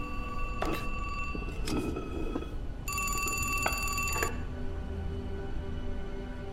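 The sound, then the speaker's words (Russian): A wall telephone aboard a train rings after its call button is pressed, a bright metallic bell trill lasting about a second and a half, preceded by a few short tonal clicks over a steady low rumble. “Нажимает на кнопку вызова. В хвостовом вагоне трубку поднимает лысый мужчина.”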